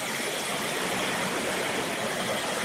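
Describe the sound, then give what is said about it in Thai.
Water is poured into a cooking pot of catfish in a steady, continuous rush that holds an even level from start to finish. “เติมน้ำลงไปนิดนึง”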